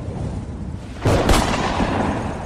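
A gunshot from a weapon drawn by a villain in a Spanish radio drama cracks out as a sudden loud, sharp blast over a steady low rumble. The burst stands out against the quieter background before the noise settles back.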